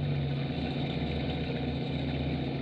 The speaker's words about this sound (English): If I was hauling anything but a load of cash, I wouldn't have to drive on a night like this.